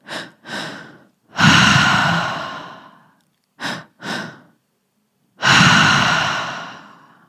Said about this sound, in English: the two inhales through the mouth and one exhale out the mouth. It kind of feels like the first inhale is coming through your belly, the second inhale is coming through your chest, and then we exhale.